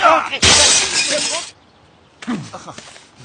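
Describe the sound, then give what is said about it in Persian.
Window glass shatters when a thrown coconut hits it: a sudden loud crash bursts into a spray of tinkling, scattering shards that lasts about a second before stopping. Voices are heard briefly before the crash and again after it. “نارگیل از دستم در رفت. لطفا برو یه شیشه نو بنداز، پولشو میفرستم ادارتون.”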